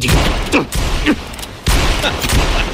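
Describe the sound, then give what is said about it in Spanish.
Gunshots fired upward by a man trapped down below: a few sharp, loud bangs spaced irregularly over a noisy, rumbling background. “¡Sacadme de aquí o dispararé! Inténtelo, pero dudo que desde ahí abajo tenga buen ángulo.”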